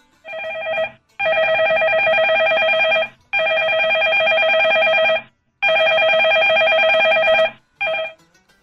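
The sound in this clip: A telephone rings in long repeated bursts of bright, warbling electronic tones, five rings separated by short silent gaps, the last one cut short, with no voices.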